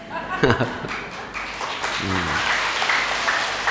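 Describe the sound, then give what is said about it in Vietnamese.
Elderly audience clapping hands during a Buddhist dharma talk, a steady patter of applause that builds and holds, with voices briefly speaking over it. “Vỗ tay chúc mừng mình đi. Già mà còn vỗ tay được là khỏe.”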